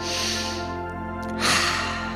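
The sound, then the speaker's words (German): A deep breath drawn during a guided meditation, a breathy rush of air swelling in the second half over steady, sustained background music. “Nimm dir noch einen tiefen Atemzug.”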